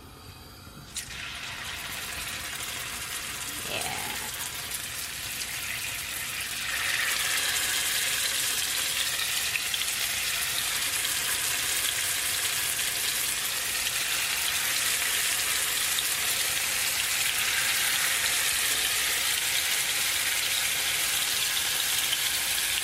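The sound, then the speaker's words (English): Tofu deep-frying in hot oil makes a steady, bright sizzling hiss that grows louder partway through and then holds, with no voices. “All right, my oil's nice and hot, so let me start dropping these in.”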